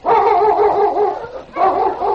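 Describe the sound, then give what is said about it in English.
Sled dogs of a dog team bark and whine in loud, tonal yelping calls, with two drawn-out bursts separated by a brief dip, heard alone without talking. “Sergeant Preston came around a bend with his dog team”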